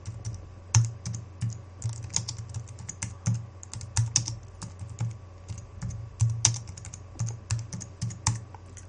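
Typing on a computer keyboard: many quiet, irregular key clicks with occasional brief pauses, heard alone.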